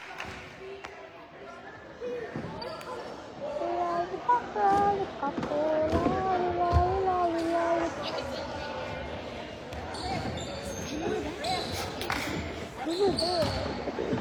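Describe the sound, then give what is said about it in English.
Basketball dribbled down the court and driven into the paint during a women's game, many steady bounces heard under voices and a busy background din. “20 taking the ball down for the Wolverines. Drives all the way into the paint, shoots it, and is in a blocking foul called on Tia.”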